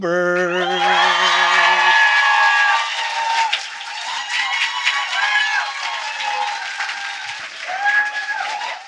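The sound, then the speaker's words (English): Loud audience applause and cheering greet a guest at a live show in Berlin. The roar is strongest at first, then eases slightly while staying dense, with whoops rising above the clapping throughout. “That's how you know the applause is good, is when you have to check to make sure your microphone is on, because the crowd was so loud.”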